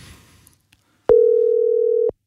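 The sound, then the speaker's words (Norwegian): A telephone call tone sounds while a call is placed, one steady mid-pitched tone lasting about a second after a moment of near silence. “Vi har tatt en telefon, og denne gangen så ringer vi til Tønsberg.”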